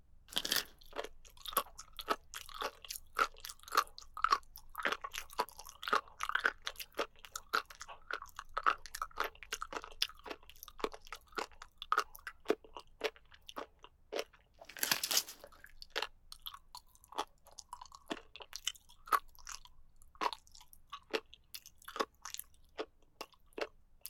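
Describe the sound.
Someone chews crunchy cartilage in many crisp, rapid crunches at a steady, even rhythm, quiet overall, with one louder, harsher burst partway through and no talking.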